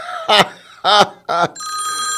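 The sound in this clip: An office telephone ringing at a chamber of commerce community building, a bright, steady electronic ring following a few short bursts of voice.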